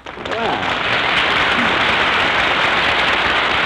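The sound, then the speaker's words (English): Audience applause welcomes a guest in San Francisco. A brief voice at the start gives way to a quickly swelling, dense roar of clapping that holds evenly to the end. “Hey, you hear that? Hey, that's a nice hand you got there, Mary. They kind of like you in this town, huh?”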